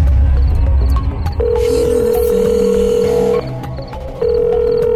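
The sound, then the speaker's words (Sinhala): Telephone ringback tone heard while a call is being placed, a steady mid-pitched electronic tone sounding twice with a short gap, over a busy background of other noise, with no speech. “ඉන්න මං call කරලා බලන්න.”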